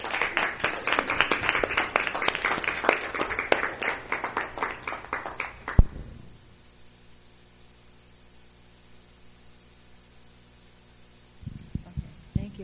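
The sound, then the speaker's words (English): Steady applause from a church audience standing to welcome a woman speaker. Dense clapping runs for about six seconds, ends with one sharp clap and gives way to near silence. “let everybody stand and give her a hand and encourage her”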